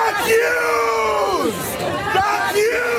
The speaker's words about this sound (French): Tandis que plusieurs dizaines de personnes manifestent à Manhattan au pied de l'immeuble du New York Times en hurlant « J'accuse » en français dans le texte, écoutez.